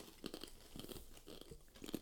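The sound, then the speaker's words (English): Quiet, crisp crunching of someone chewing ranch-flavoured chips, several irregular bites and chews in quick succession with no talk over them. “Dude, I hope these just taste like fucking Doritos. All right. Ooh. Ooh. They do.”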